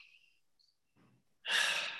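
A deep breath, heard as one sudden, loud, airy rush of breath that begins after a near-silent stretch with a few faint soft noises and continues to the end.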